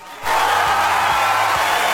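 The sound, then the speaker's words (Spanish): Applause for the players of a school futsal tournament hosted by a municipal school: a dense, steady wash of clapping that starts abruptly after a brief quiet moment and holds at an even, loud level to the end. “Así que aplausos para todos quienes participaron en este torneo.”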